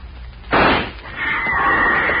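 A single rifle gunshot fired at a far-off animal: one sharp, loud burst that decays into a lingering hiss, then a steadier higher noise that carries on to the end.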